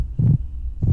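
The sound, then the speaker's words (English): Amplified heartbeats of protesters, picked up by small loudspeakers worn on their chests, come through as deep, muffled thumps: one heavy beat, a pause, then the next beat starting, with a low hum between them. “What you're hearing is the collective sound of the protesters' heartbeats. The sound that is amplified by a little loudspeaker that is positioned on each one of the protesters' chests.”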